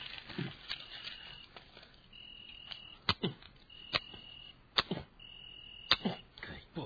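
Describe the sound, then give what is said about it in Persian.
Matches with damp heads being struck and failing to light give several sharp, scratchy rasps at irregular intervals. Softer rustling and handling noise fill the gaps between the strikes. “اینم که روشن نمیشه. شاید کوگردش نم کشیده. مگه نگفتی مسجد نموره؟ چرا کبریت نمیزنی؟ همه چوب کبریتاش سوخته است.”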